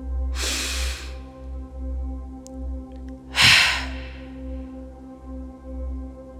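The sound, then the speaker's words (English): Two sharp, forceful exhalations during a morning meditation breathing exercise, each a brief hissing burst of air a few seconds apart, over a soft, steady low drone. “exhaling sharply. Twice more. Last one.”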